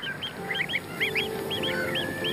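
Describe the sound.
Greylag geese, including flightless moulting adults with goslings nearby, honk in short, repeated nasal calls that come in quick pairs and clusters over a steady background hiss.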